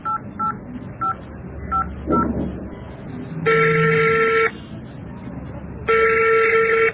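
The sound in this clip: Phone keypad dialling tones: five short electronic beeps at differing pitches in an uneven rhythm, then two longer, steady, louder ringing tones separated by a pause, with faint sound beneath.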